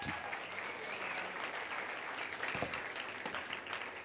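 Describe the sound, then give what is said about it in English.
An audience applauds performers who have just sung a hymn at a morning church service, a steady, even wash of many hands clapping that lasts throughout, fairly soft. “Can we give them a hand?”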